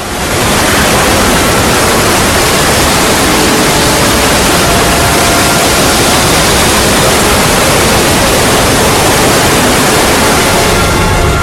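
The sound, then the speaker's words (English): Deluge of dark-colored water pouring down with a dense, loud, continuous roar. The rushing noise stays unbroken and steady for the whole stretch, with no pauses or separate splashes. “Dahlia, who disappears under a deluge of dark-colored water.”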